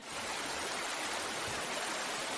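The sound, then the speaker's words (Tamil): Steady rushing of water flowing into a garden bed for irrigation, a continuous even hiss that holds at the same level throughout, with no voices. “இந்த ஒரே ஒரு பாத்திக்கு மட்டும் தண்ணி பாய்ச்சிட்டு”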